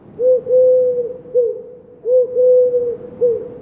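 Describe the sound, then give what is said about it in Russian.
Rock doves coo in low, hollow, steady tones, giving six separate coos grouped as two matching phrases of three, loud and clear with no other sounds. “сизые голуби тоже похожие звуки могут издавать, такие у-гу-гу”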